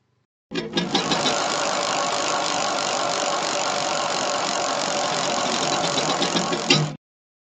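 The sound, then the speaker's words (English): A spinning prize wheel clicks rapidly against its pointer, making a dense, continuous ratcheting rattle that holds steady for several seconds and then stops abruptly. “I'm going to spin the wheel that contains different bills, both federal and state”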